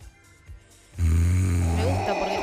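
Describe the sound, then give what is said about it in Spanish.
A voice imitates the heavy, congested breathing of a sleeping person. After about a second of quiet, a loud, raspy, low-pitched tone rises and holds steadily to the end. “¿Viste cuando se duerme y está un poco congestionado y hay un respirar fuerte? No es ronquido, pero es un respirar fuerte. Exacerbado por el silencio en la habitación.”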